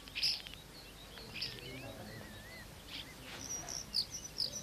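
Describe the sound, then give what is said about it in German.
Starlings chirping in a garden, faint scattered chirps and whistles, with many short calls over a soft, steady background hiss. “Die Stare zwitschern.”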